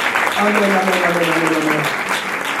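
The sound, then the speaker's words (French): A church audience applauds the word of God, a thick, even burst of clapping sustained throughout while a voice speaks over it. “On peut acclamer juste un instant la parole de Dieu.”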